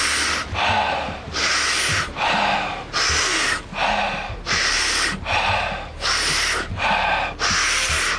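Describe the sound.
Forceful breathing during a guided breathing exercise: many loud, rhythmic rushes of air follow each other in quick succession, each with a brief dip before the next, continuing steadily throughout.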